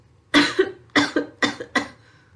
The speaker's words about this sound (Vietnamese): nối theo đó là một trận ho khan dữ dội